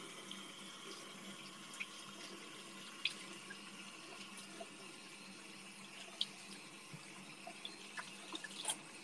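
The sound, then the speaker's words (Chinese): Tap water runs steadily while hands are washed, a continuous even rush with a few faint splashes and clicks scattered through it. “洗洗手啊！”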